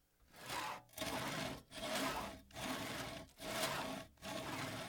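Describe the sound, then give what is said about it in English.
A saw cuts with six steady back-and-forth strokes, each a rough, hissing rasp separated by brief pauses, in a regular rhythm throughout, recorded in stereo with the saw on one channel. “Stereo sawing. This is saw on the other channel.”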